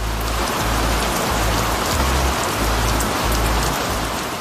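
Rain falls in a dense, constant hiss. Low, pulsing bass notes run steadily beneath it.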